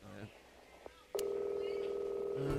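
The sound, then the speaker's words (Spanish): Telephone keypad tones as a number is dialed, a short voice and a brief beep, then a click followed by a long, steady electronic tone held to the end. “Estamos marcando en este momento.”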